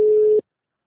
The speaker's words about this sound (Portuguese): a ligação caiu?